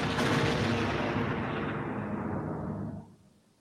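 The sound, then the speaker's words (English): A seismic charge detonates underground, its blast slightly muted. A dense, roaring burst holds for about three seconds, then quickly dies away. “As the beak retracts, Fennec lets out a derisive "fire in the hole" as the seismic charge detonates.”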